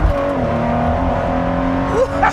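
A Ford GT sports car accelerating hard from a traffic light in a short sprint: a loud, steady engine roar with a harmonic whine that climbs briefly near the end.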